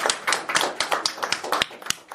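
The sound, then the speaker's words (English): Applause from an audience at an evening event, heard as a steady run of crisp, evenly spaced claps at a brisk rhythm, moderately loud and without voices. “Everybody give Maggie Alley another big round of applause.”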